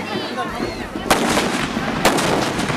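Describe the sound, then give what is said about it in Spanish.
Homemade explosives tied to the heads of sledgehammers and smashed against the ground at a Mexican festival commemorating a battle. Two sharp, loud blasts, about a second apart, burst over a continuous rumble with voices. “Las personas amarran explosivos caseros a la punta de su marro para estrellarlo contra el piso.”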